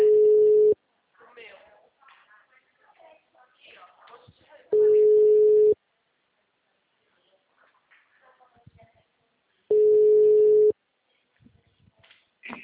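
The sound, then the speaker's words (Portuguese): Telephone line tones while a call is placed: three steady, even-pitched tones of about a second each, spaced roughly four seconds apart, with people talking quietly in the gaps between them. “Tô discando aqui, tá normal.”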